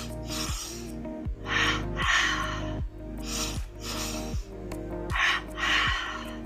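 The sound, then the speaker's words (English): Pulse breathing, two breaths in through the nose and two out through the mouth, heard as quick breathy bursts in pairs that repeat in a steady rhythm over soft background music. “inviting in that pulse breath, inhaling 2 times through the nose, exhale 2 times through the mouth.”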